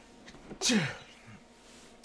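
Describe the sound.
A single sharp sneeze bursts out abruptly in the quiet and fades quickly, preceded and followed by soft low murmurs.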